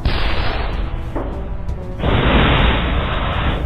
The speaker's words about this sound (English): It's launching explosive grenades at us.